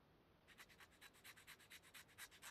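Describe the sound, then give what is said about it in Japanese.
Sanding with a file: quick, rhythmic rasping strokes, many back-and-forth scrapes at a steady pace, very quiet and alone with no voices. “じゃあヤスリがけも。”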